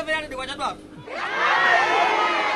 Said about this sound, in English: The audience hoots as she sells for too little.